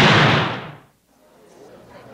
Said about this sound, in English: That definitely got a reaction out of me. Yeah, the gunshot.